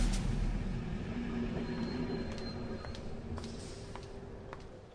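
A train at a railway station platform makes a quiet, steady rumble with faint, thin squealing tones above it, easing off slightly toward the end.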